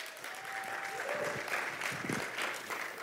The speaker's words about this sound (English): Big round of applause for Josiah